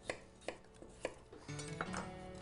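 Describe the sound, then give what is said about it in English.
Yukon Gold potatoes being sliced with a knife: a few faint, sharp cuts land at an unhurried pace, then a steady low hum comes in under further soft knocks against the board. “Okay, so the first thing we're going to do, we're going to get some nice Yukon Gold pea potatoes, and we're just going to slice them up.”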